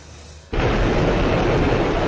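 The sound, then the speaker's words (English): The Agni 5 missile launches from an island off India's east coast. A quieter rumble gives way abruptly to a loud, dense, sustained blast-off roar that holds steady to the end. “The Agni 5 missile blasted through the clouds from an island off India's east coast early Thursday, heading skyward”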